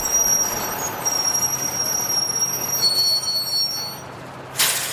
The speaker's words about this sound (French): Bon, me voilà à la gare de Lyon. Fin du voyage. Je suis sur le quai.